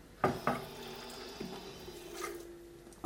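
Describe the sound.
Water beginning to flow as a valve on a home plumbing installation is opened slightly: a few faint metallic clicks, then a quiet, steady flowing hum, with a single short word spoken.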